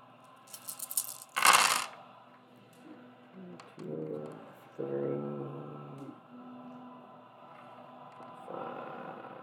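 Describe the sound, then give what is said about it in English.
Four-sided dice being picked up and handled during a tabletop dice game: a short burst of light clicking clatter near the start, followed by people talking. “It's hard to pick up four-sided dice.”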